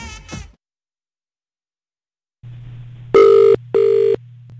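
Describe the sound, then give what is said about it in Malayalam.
An outgoing phone call's ringback tone sounds after silence. A low steady hum gives way to two loud buzzing ring pulses in quick succession, with no talk. “ഇത് Kochi F M phone out ഗാനോത്സവത്തിൽ നിന്നാണ് വിളിക്കുന്നത്”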